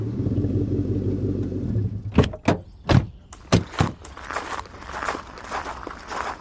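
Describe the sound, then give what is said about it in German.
Footsteps of people setting off on foot after a car has stopped. A low rumble dies away, then a few sharp, irregular steps and scuffs follow, trailing into softer shuffling. “Okay, dann gehen wir wohl von hier aus jetzt besser zu Fuß weiter.”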